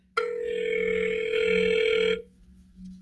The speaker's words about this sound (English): I'm calling TJ Miller right now